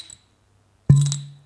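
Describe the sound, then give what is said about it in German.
A finger pops out of a bottle opening: one sharp, hollow pop with a low resonant tone that rings and fades over about half a second. A faint tick comes before it. “wenn du so mit dem Finger in die Flasche gehst, dann plöppt er immer so ein bisschen. Ja, das machst du jetzt aber nur, um den zu ärgern, den Mann. Ja, ne, ich mach das, um dir das zu verdeutlichen.”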